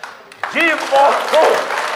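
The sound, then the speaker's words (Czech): An audience applauds a performer at a stage show. Clapping swells after a quiet start and then holds steady, while loud voices call out over it. “A já si myslím, že mu všichni zatleskáme.”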